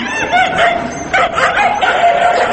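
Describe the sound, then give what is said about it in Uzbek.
Stray dogs in a city barking and yelping during a crackdown on street dogs, a loud, continuous mix of overlapping yips and barks. “Demak, mana shu itlarni ushlashni va shaharni itlardan, daydilardan nazoratni tozalashni Shavkat Mirziyoyevni o'zi qattiq nazorat qilayotgani aytilayotgan ekan.”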